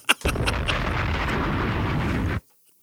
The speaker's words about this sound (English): Bombs!